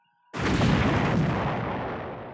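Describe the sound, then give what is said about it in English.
A space station explodes in a single sudden, loud boom with a sharp onset, followed by a long, roaring rumble that slowly fades over about two seconds. “The space station exploded before them.”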